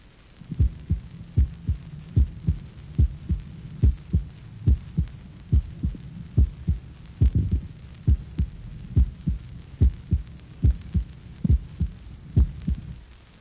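Normal heartbeat heard at the apex of the heart, many regular lub-dub cycles in which the first sound of each beat is longer, louder and lower than the second, over a faint low hum.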